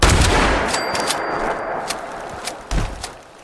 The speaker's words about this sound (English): few more shotgun shots to the face, and these guys should be done, hopefully.